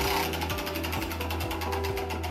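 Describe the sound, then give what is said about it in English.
A prize wheel spinning during a live audience question session on organ and tissue donation, giving a loud, steady run of rapid mechanical clicks over an even whirring hum, with no voices. “So we've added those questions to our spinning wheel, and we're going to answer them right now from the audience. So let's give the wheel a huge spin.”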